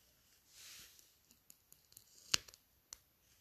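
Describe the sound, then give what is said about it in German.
Plastic film peeled off a new headband: a soft rustling swell, then scattered faint crinkles and small clicks with one sharper snap, all quiet and with no voices. “Folie abziehen.”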